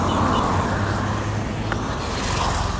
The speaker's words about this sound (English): I have to cross the road. It's not just easy.